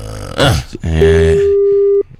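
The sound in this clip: A telephone rings on an unanswered call with one steady mid-pitched tone lasting about a second, after a brief noisy burst and a low voice-like sound.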